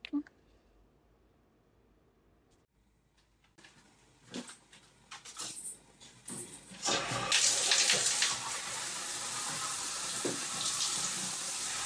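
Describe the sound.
Water running from a tap for a shower. A few quiet, scattered handling sounds come first, then the flow starts and becomes a loud, steady rushing hiss that continues to the end.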